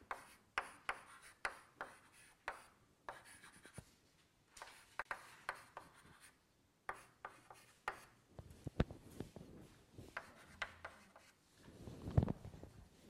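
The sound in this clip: Handwriting with a pen or pencil: many short, scratchy strokes come in irregular bursts with brief pauses between them, faint and alone.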